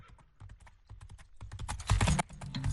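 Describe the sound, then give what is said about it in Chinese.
Horse hooves clip-clop outside a relay station as a rapid run of sharp, clicking hoofbeats that grows louder and denser toward the end. “就听见驿站外传来脆响的马蹄，终于要出发啦！”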